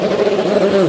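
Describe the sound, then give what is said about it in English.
An LMP2 prototype race car pulls away from the pit garage, its engine a steady, loud, buzzing drone with a strong mid-pitched harmonic tone held throughout. “That was the sound of the car pulling away, and an amazing noise of these LMP2 machines.”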